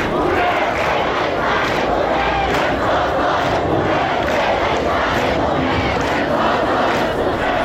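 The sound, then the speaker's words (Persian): Students chant slogans at a protest against the Islamic Republic's leader at Azad University in Qods city, a dense, loud crowd roar with rhythmic surges of many voices continuing throughout. “در دانشگاه آزاد شهر قدس، دانشگاه محل تحصیل حمیدرضا روحی، از کشته شدگان اعتراض‌های اخیر دانشجویان علیه رهبر جمهوری اسلامی شعار دادند.”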